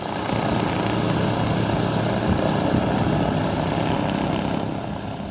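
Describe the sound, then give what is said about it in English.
A hydrogen-powered hexacopter lifts off at an airport, its rotors making a dense, steady, loud whirring roar that holds constant throughout and eases slightly at the very end. “And slowly, surely, the hydrogen-powered hexacopter lifts off the ground.”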